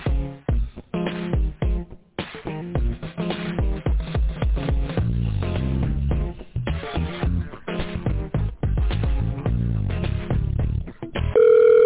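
Narrowband telephone-line audio as a call is placed to a doctor's office extension: steady tonal, music-like sound with a few short breaks, filling the line for about twelve seconds with no talk.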